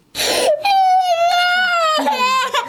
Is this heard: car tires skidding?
no